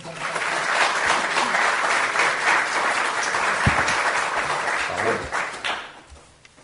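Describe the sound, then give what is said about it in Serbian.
Audience applause opens a concert-style evening of spoken songs: dense, even clapping sustained for several seconds before fading out near the end. “Pa da ga počnemo aplauzom.”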